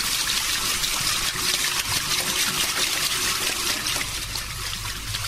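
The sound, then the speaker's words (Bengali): Shower water runs in a steady, continuous hiss of spray, holding an even level for the whole stretch with no voices. “এবার আমি শাওয়ারটা খুললাম আমি হ্যাঁ, চান করতে যাচ্ছি”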